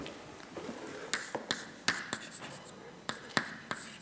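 Writing on a board: irregular sharp taps and short scratchy strokes, a dozen or so crisp hits spread over steady low background noise.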